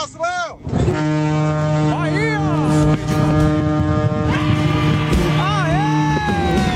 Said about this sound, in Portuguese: Meu buzinaço em todo o Brasil, os caminhoneiradas só buzinando aí, ó!